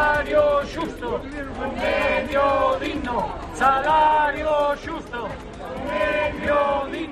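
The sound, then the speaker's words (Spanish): Galician bus drivers on strike at a rally in Vigo chant a short slogan in unison, twice, with loud rhythmic voices carried by the crowd. “Este es el sonido de los conductores de autobús de Galicia que este viernes viven una jornada de huelga para pedir la negociación de nuevos convenios colectivos para el sector.”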